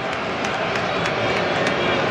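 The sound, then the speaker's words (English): Light booing from a baseball crowd aimed at the third base umpire after a check-swing appeal. It is a steady, fairly loud wash of crowd noise that holds level throughout without clear breaks. “Crowd's still not happy. A little light boo to the third base umpire.”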